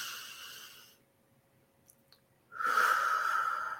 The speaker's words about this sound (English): take a nice deep breath in and let it out slowly.